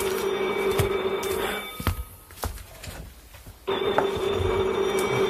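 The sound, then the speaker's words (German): A telephone rings with a steady electronic trill, a continuous buzzing tone that stops for about a second and a half midway, with a few sharp clicks, then resumes to the end. “Das Telefon, entschuldigen Sie mich bitte.”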